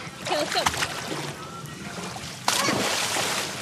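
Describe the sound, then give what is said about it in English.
Guests splash around in a hotel swimming pool at the Hotel Valley Ho in Scottsdale on a scorching day, with sloshing water and a sharp burst of splashing partway through. People talk over it. “On a scorching hot day at the Hotel Valley Ho in the Phoenix suburb of Scottsdale, a handful of guests splash around the pool,”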